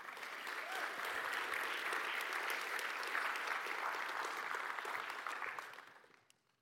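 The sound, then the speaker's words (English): Audience applause welcomes a young adult coming up to share her story at an evening church gathering: steady, full clapping that holds for several seconds and then fades out. “So give her a good big hand as she walks up.”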